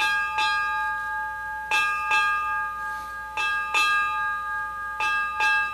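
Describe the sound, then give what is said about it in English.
A Navy ship's bell rings eight bells to mark the end of a watch. Bright metallic strikes come in evenly spaced pairs, each leaving a sustained ringing tone between the pairs. “That is the sound of eight bells. In the Navy, it signifies the end of a watch, and it is the end of Admiral William McRaven's naval service”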